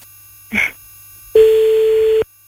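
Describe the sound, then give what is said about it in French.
A phone call reaches an answering machine: a short electronic blip sounds, then after a brief pause a long, steady single-pitched beep follows before the line falls almost silent. “Bon, c'est de nouveau le répondeur.”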